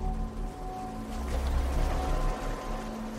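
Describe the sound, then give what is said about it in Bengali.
Water rushing and waves breaking against something below, a steady surging wash that swells through the middle and then eases back. “পাচ্ছি, বাইরে জলের আওয়াজ, নিচে কোথায় ধাক্কা খেয়ে ঢেউ ভাঙছে।”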